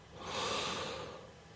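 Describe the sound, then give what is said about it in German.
A single deep breath is drawn in during a guided self-comfort breathing exercise: a soft, airy rush swells and slowly fades, quiet and alone. “Und dann nimm mal einen ganz tiefen Atemzug.”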